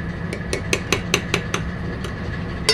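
A cook stirs beef and noodles in a large stock pot at full boil, producing a series of sharp metallic clinks at irregular intervals over a low, steady background.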